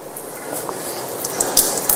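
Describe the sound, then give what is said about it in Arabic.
Water splashing and squishing as hands are washed and rubbed together during ablution, a soft, fairly faint wet patter with a few brief louder splashes near the end. “ولا بد أن تغسل اليد كاملة هكذا تغسل، وإمرار اليد على اليد هكذا هي السنة، هذا يسمى التدليك. لكن لو غسلت يدي بهذه الطريقة مثلا”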